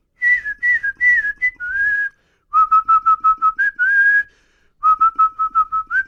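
A person whistles a rock song tune: clear melodic phrases made of quick repeated short notes and a few held, sliding notes, in three runs separated by brief pauses.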